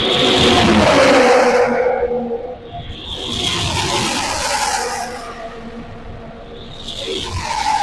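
Race cars roaring around a racetrack: a loud, continuous engine drone that swells and fades in several passing surges, with hints of tire noise and no talk.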